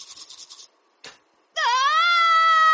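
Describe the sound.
A person screams while brushing teeth with bleeding gums: rapid rhythmic brushing scrubs, a short pause, then a loud, long, sustained high-pitched scream that holds steady to the end.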